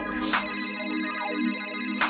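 A phone rings during an outgoing call, heard as a steady, sustained ringback tone through a narrow phone line, with a few brief brighter bursts over it.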